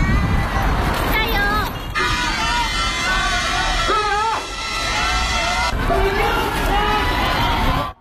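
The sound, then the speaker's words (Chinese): Roadside spectators of all ages, adults, children and elderly people, cheering on marathon runners. Overlapping shouting voices form a loud, continuous crowd din with distinct cries rising out of it. “现在呢路边的加油声也是不绝于耳，有大人有小孩还有老人都有。”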